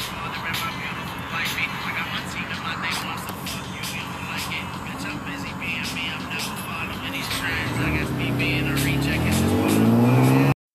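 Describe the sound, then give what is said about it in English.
A car engine roars as the gas pedal is pressed, with a dense, rough drone throughout. The engine tone climbs sharply over the final seconds before cutting off abruptly. “Now hit the gas pedal.”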